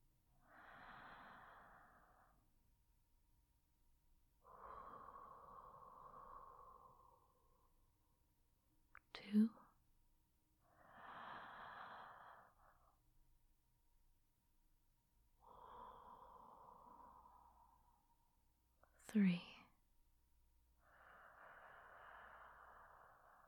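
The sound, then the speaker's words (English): Three slow, deep breaths taken during a guided relaxation, each a soft, airy inhale followed by a longer exhale, with quiet pauses between. “I want you to take 3 nice deep breaths. I want you to listen to how it sounds when you breathe. 3 deep breaths.”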